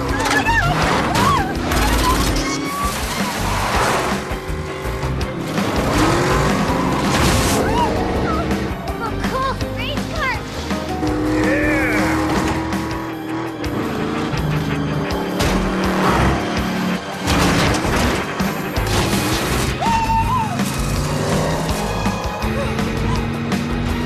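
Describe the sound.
Car engine roaring with squealing tires as a car speeds through neighborhood lawns and gardens during a chase. Dense, loud and continuous, with repeated tire screeches over the engine noise.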